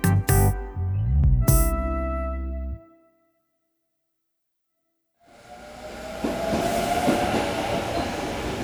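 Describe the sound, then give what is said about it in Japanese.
A train arrives at the platform of Asakusa station. A brief tonal signal comes first, then a few seconds of silence, then a rumbling, hissing train sound swells in and stays steady. “まもなく浅草駅電車が参ります。”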